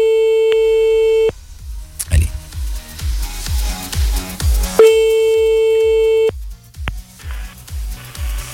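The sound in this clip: A steady telephone line tone sounds while a call is placed to a radio listener, two long level beeps separated by a rhythmic thumping music beat.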